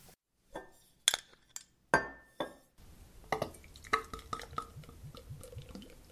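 A glass bottle of Wyoming beer is opened with a few sharp glassy clinks and knocks, then softer, continuous fizzing with small dripping and bubbling ticks.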